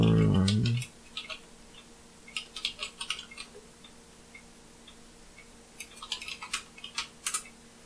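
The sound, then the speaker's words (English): Computer keyboard typing as a search is entered into Google: many light, irregular clicking keystrokes come in short bursts after a brief voice at the start. “Let me type something into Google and believe the first thing that happens.”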